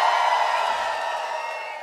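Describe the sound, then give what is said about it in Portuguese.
A crowd of pagode fans shouts and cheers in a dense, sustained roar of many voices that holds steady and eases off slightly toward the end. “Cadê o grito dos pagodeiros?”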